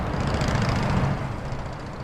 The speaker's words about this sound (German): Autos und Lkw schleichen im Schritttempo an der Porte d'Ivry vorbei.